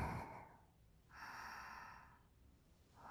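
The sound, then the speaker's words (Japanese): Slow, deep breathing through the nose during a guided breathing exercise. A long, soft, airy inhale of about a second sits between the fading end of one breath and the start of the next, all faint and hushed. “ほら、鼻から大きく息を吸って”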